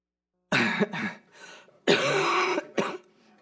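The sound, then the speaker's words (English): Several harsh coughs and throat-clearing bursts come in uneven clusters, loud and alone, with short gaps of quiet between them. “Okay, just need to cough to turn it on.”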